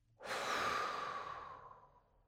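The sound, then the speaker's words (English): A forceful exhale blown out after a deep inhale in a guided breathing meditation: a broad, airy rush that starts abruptly, then thins and fades over about two seconds, faint and with no talking. “deep breath in, forcefully blowing out,”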